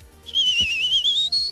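High whistling sound effect of a rocket, a single sustained tone that wavers and then climbs slightly toward the end, over a faint low background.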